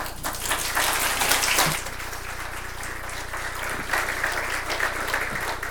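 A church audience applauds to welcome a guest with sustained, dense clapping that holds steady throughout, easing slightly after the first burst.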